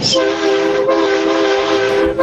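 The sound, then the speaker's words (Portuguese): A taxi horn blares in one long, loud, sustained blast during a horn-honking demonstration. The buzzy, steady tone holds for over two seconds with a couple of brief dips. “Vai. A buzina aí.”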